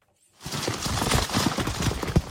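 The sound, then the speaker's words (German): Horse hooves galloping on forest floor in western Ukraine, from an old native forest horse breed carrying riders: dense, rapid, rumbling thuds that begin abruptly after a brief silence and continue loudly to the end. “Pferdehufe auf Waldboden nahe der Stadt Chmelnytskyi in der Westukraine.”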